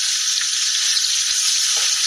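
Onions and brown sugar frying in a pot in a cooking video, a steady, dense, bright sizzle that holds evenly throughout with no talk.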